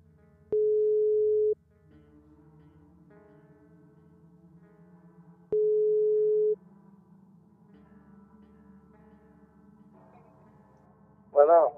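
Telephone ringback on an outgoing call: two steady, mid-pitched ring tones of about a second each, spaced several seconds apart, with a faint low hum between them and a short burst of sound at the very end.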